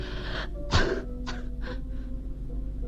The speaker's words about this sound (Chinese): 海伦不停地咳嗽着，我翻来覆去的睡不着。